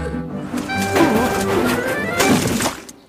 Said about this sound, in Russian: Неожиданно часть посылок выпала из грузовичка и упала прямо в лужу на дороге.